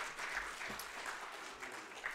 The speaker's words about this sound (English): Y'all give them another round of applause if you don't mind.